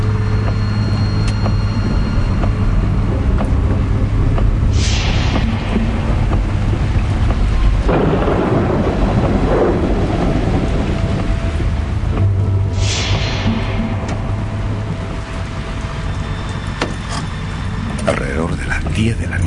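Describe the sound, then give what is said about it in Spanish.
Storm sounds as heavy rain builds into a violent tempest: a continuous, dense roar of rain and gusting wind runs for about twenty seconds, with a couple of hissing surges rising out of the steady wash. “de camino se encontró con una lluvia que a poco andar se convirtió prácticamente en un verdadero temporal”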